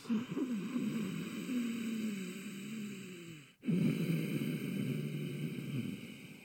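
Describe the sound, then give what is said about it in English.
Ujjayi yoga breathing through a constricted throat: two long, slow breaths with a soft, raspy hiss and a low throaty rasp, separated by a brief pause, faint and unhurried. “I'm going to do about three rounds of Ujjayi breath, or we can call it Darth Vader breath.”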